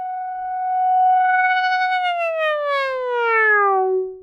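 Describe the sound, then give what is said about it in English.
Quirky electronic synth tone shaped by modulating an LFO rate: a bright, buzzy, harmonic-rich note holds level for about two seconds, then glides steadily downward in pitch with a light wobble before cutting off. “It's a very cute, quirky little electronic sound.”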